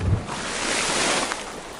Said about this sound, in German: Da, hört ihr dieses Geknister? Hört ihr, also ich hoffe, ihr könnt das hören, weil das ist genau das Geknister, was man hört, wenn man tauchen geht.